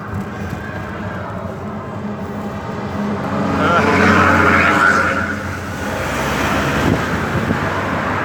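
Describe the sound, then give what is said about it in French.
Road traffic heard while cycling, with cars producing a steady, loud roadway rumble that swells as a vehicle passes midway, then settles back to a constant wash of engine and tyre noise. “Je suis en train de pédaler, donc il y a beaucoup de voitures. Et ça va klaxonner forcément, parce que ça klaxonne beaucoup ici.”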